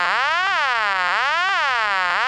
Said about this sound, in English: from Fairfield, Connecticut, a number one step that has the crossbar type ring and also third generation selectors that are able to intercept dialing errors by having the reorder or vacant level tone